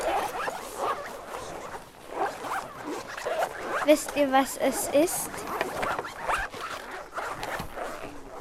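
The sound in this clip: Pencil case zippers open in a classroom, many rasping zips overlapping in a steady busy clatter. A voice speaks over the noise.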